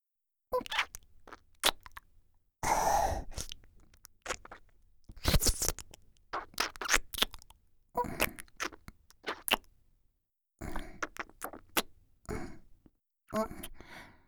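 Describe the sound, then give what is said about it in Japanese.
Wet, intimate kissing with tongue, made up of many soft smacking and sucking bursts mixed with breathy sighs, coming in irregular clusters separated by brief silences. “本当に頭の中がとろけちゃうくらいにキス美味しい。”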